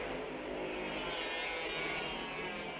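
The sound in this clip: Racing motorcycles roar past in a continuous stream during a motorcycle race, making a dense, unbroken engine drone that stays loud and even throughout.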